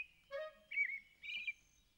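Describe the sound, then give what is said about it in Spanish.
An adult thrush sings three short whistled phrases with pauses between them. The notes are clear and tonal, the song is fairly faint, and no one talks. “No lo sé. Nunca he escuchado esa canción. ¡Oh! ¡Es un tordo! ¡Oh! ¡Un tordo adulto!”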